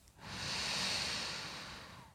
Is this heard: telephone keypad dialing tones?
no